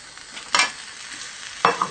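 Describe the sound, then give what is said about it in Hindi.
Stirring in a pan as sugar and cream are mixed into a golden-browned mixture along with cardamom powder. Two distinct scraping strokes stand out, with a smaller one at the end, over a faint sizzle. “साथ में इलायची powder डाल लें और इसको अच्छी तरह अब आप मिक्स कर लें।”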